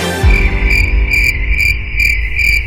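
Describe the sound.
Cricket chirping in repeated, evenly spaced bursts of a high, bright trill, loud and alone over a faint low background.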